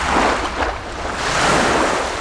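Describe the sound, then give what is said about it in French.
Sea waves at Montpellier roll in as a steady, broad rushing roar that dips slightly, then swells again toward the end, with no voices. “En compagnie des vagues montpelliéraines”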